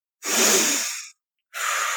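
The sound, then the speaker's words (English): A deep breath is drawn, heard as two loud, airy rushes of breath separated by a brief silence. The first rush is longer than the second, with no talking. “I put my hand on my heart, my hand on my stomach, and I take a deep breath, and that one's for me.”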